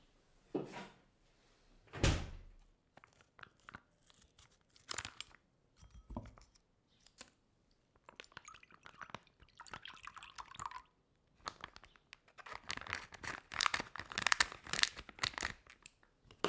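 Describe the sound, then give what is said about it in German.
Plastic crinkling, tearing and dripping liquid as a package of mozzarella cheese is opened, with scattered handling noises and a denser burst of crinkling toward the end. “Nun öffne ich eine Packung mit Mozzarella-Käse.”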